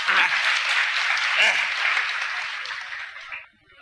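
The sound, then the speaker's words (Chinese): Audience applause greeting a guest coming on stage: dense, loud, sustained clapping that holds steady for over three seconds and then drops away quickly at the end, with voices faintly beneath it. “哎， 那太好了，各位鼓鼓掌，让他来了。”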